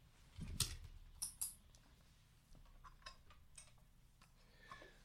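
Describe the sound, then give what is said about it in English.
A light switch is flicked on with a faint, sharp click, followed by a few softer ticks in an otherwise quiet stretch. “Right, where's my diary? Hold on, I'm just going to switch the light on.”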